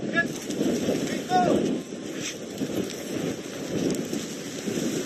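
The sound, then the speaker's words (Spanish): Wildfire flames burning in Greece crackle and hiss in a dense, continuous texture of sharp pops over a low, steady roar. “Son algunos de los sonidos de las llamas que nos deja lo que está ocurriendo allí desde hace varias semanas.”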